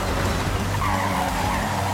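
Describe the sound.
Tires squeal as a Celica brakes and skids in the Forza Horizon 5 racing game, a continuous loud, broad hiss with a rumbling engine underneath throughout.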